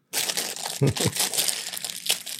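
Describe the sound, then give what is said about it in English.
Paper rattling and crinkling in a continuous, busy rustle with a few louder crunches, fairly soft overall. “I'm sorry for all the paper rattling.”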